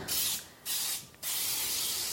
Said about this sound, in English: lucky enough to have something that's a spray called Baker's Joy, which is a baking spray like Pam or some kind of thing you use on the stovetop, but it's got flour in it. And I'm just going to use that and spray the inside of the pan.